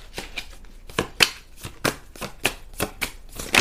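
Cards shuffled and drawn: many quick papery swishes and snaps in an uneven rhythm, moderately loud.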